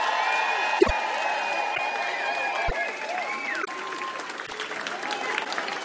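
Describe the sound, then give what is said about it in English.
Audience applause and cheering for a DJ: steady, dense clapping with crowd noise at moderate loudness, a few sharp low thumps near the start, and some sustained tonal whistling layered through the wash. “Everybody, can you all make some fucking noise for DJ Benjol?”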